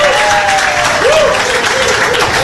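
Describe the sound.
A live crowd applauds loudly and steadily for a college football coach. The dense clapping lasts throughout.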